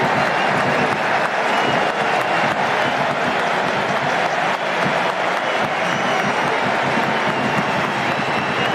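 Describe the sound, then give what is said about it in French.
Stadium ovation as Ousmane Dembélé is substituted off for France: a loud, dense wash of applause and crowd roar that holds steady throughout with no break. “Ouais, on va écouter l'ovation. Allez Ousmane Dembélé. Allez, écoutez ça.”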